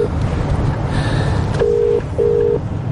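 Telephone keypad tones sound as a call is dialled: two clear, steady beeps of the same pitch, separated by a short gap, over a low background hiss.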